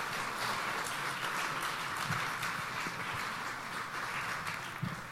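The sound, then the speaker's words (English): Church audience applauding to welcome a pastor coming up to preach: soft, steady clapping that stays even throughout, fairly faint. “So would you guys give Pastor Mike a big welcome as he comes and brings the word?”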